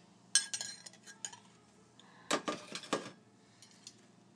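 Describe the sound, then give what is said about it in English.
Bowl and spoon being picked up and handled, with light clinks and knocks of cutlery against dishware. Scattered taps lead into a brisk cluster of sharper clatters, followed by a few faint clicks. “So I think I'm going to grab a bowl and a spoon.”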